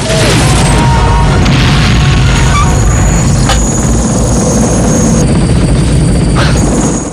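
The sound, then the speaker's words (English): An attack helicopter is hit by gunfire and explodes in a loud, dense, continuous roar of rotor noise and blast rumble, with a few sharp cracks of impact. “Bullets impact the attack chopper's nose, then the chopper explodes.”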